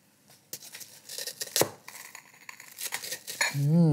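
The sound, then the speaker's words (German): A small spoon breaks into a dessert with strawberry lava sauce, making a run of sharp clinks, scrapes and crackles against the plate. A voice comes in briefly at the end. “Und jetzt zerläuft wahrscheinlich, wenn ich das aufbreche mit meinem Löffelchen, die Lava-Erdbeersoße über den Teller.”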